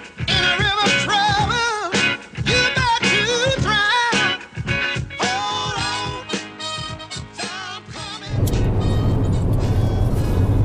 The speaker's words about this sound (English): We're still driving to San Francisco